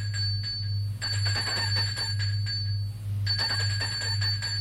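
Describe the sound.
A telephone rings in an old man's home with a bright, rattling electric bell in long bursts separated by short gaps, over a low steady hum, with no voices.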